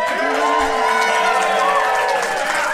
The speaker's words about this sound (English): we have a live audience with us. We do.